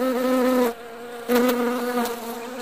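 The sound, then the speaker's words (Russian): Insects buzz in a forest with a steady, nasal droning hum that cuts out briefly partway through, then resumes and carries on to the end. “Лес был полон комаров и слепней всех разновидностей. Гудение приблизилось.”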